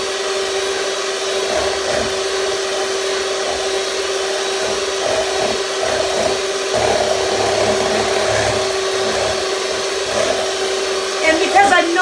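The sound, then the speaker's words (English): An electric mixer whips a small amount of whipping cream in a bowl that is being turned while the beaters move around it. The motor gives a steady, even whine with a constant hum from start to finish. “And I'm turning my bowl and I'm also moving my mixer around.”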